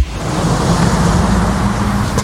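A yellow taxi in street traffic gives off a steady low rumble of engine and road noise. The sound holds at an even, fairly loud level throughout with no voices.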